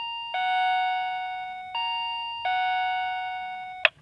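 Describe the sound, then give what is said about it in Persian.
A house doorbell chimes three sustained electronic tones, the middle one pitched slightly higher. Each tone rings evenly into the next, and a sharp click cuts the last one off. “اجازه بدید من زنگ منزل این شهید عزیز رو بزنیم.”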